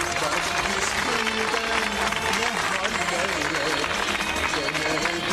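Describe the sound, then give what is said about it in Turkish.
Applause sent to a couple on a Turkish radio request show: a thick, continuous roar of clapping and crowd noise, steady throughout, with voices mixed in underneath. “Hemen bu güzel çiftimize bir alkış gönderelim.”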